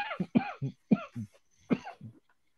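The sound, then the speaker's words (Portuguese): A person coughs several times in a quick, uneven run of harsh, throaty bursts, some of them voiced, with a short pause before the final few. “Desculpa, gente. Parou a tosse”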